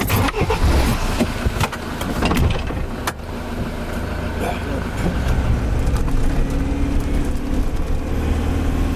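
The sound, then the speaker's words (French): A rugged 4x4 off-road vehicle drives off and climbs a track, its engine a loud, steady rumble with rattles and clunks throughout. “On décolle tout de suite à bord de son 4x4 de baroudeur”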